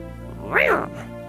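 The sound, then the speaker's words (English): A person voices one meow imitating a cat, a brief cry that rises then falls in pitch, over a quiet, steady tonal background. “If it's a meow, just let it out. Just let it rip.”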